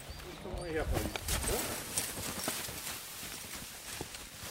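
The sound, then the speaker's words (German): A horse's hooves clip-clop as it pulls a load of about 400 to 600 kilograms up a hill. The hoof beats are faint and steady, with people talking over them. “Das freut mich jedes Mal, weil so ein Pferd so fast dann 400, 500, 600 Kilo einfach so einen Berg hochziehen kann.”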